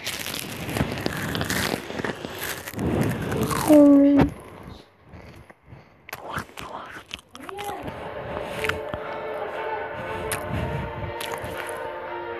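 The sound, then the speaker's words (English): Crisp bites into a sweet pepper stick cracker: several sharp, close crunches and snaps in quick bursts, followed by a softer stretch of moist chewing and crumbling that continues at a moderate level. “So what we have here is this like pepper stick and it's really, really sweet. So let's see how it sounds like.”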